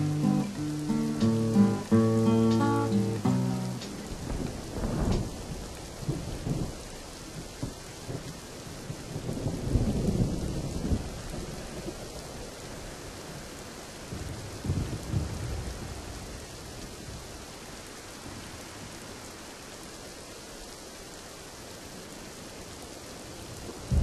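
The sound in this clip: Steady rain hisses throughout while a few low rolls of thunder swell and fade. A short stretch of tonal music plays over the first few seconds before the storm takes over.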